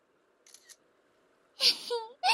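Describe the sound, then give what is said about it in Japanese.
Smartphone camera shutter snapping a photo of two people posing close together: a single bright, crisp click burst after a quiet pause, followed by a voice. “スマホスマホ、 よし。ほら、もっとこっち寄って。はい、撮るよ。”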